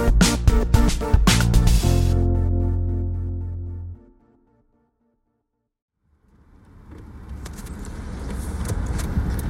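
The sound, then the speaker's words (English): A car drives down Old Virginia Road 600. Music ends and a few seconds of silence follow, then steady engine and road noise fades in and holds. “I'm currently driving down the old Virginia Road 600”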